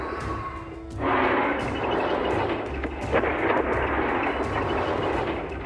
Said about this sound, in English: Shoot faster! It takes time to charge! It's pulling from the ship's power! You want me to stop shooting?